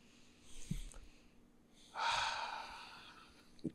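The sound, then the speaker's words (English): A person takes a deep breath: a soft, airy intake and then a louder, longer breathy exhale, heard alone with no talk. “so we're just gonna take a deep breath and then go into that.”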